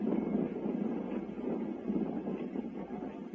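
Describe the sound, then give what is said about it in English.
The roar of the MA-6 rocket launch at the Cape is dying away: a broad, rough rumbling roar that holds fairly steady and eases off slightly, with no voices. “And now the roar begins to die away. And a great burst of smoke from the launch pad drifts slowly south across the Cape.”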